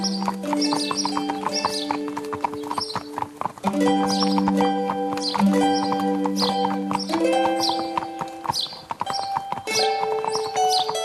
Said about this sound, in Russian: Слышно, как подкатывает повозка.